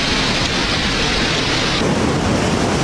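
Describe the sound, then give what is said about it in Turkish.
Heavy downpour of rain pounding a flooded street in Istanbul, a dense, constant roaring hiss that stays loud and unbroken throughout, with no voices. “Barbaros Caddesi her sağanak yağışta bu şekilde.”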